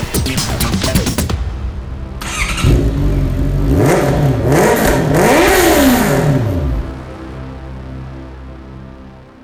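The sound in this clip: A motorcycle engine revs as the throttle is opened. Its pitch climbs and drops in several sweeping surges under a loud, rough drone, then the engine cuts away and a faint hum is left.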